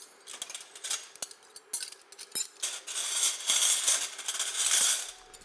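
Plates and cutlery clink and rattle as deep and flat plates are set out for a harvest meal for nine people, with light metallic taps and scrapes, faint at first and then busier and denser.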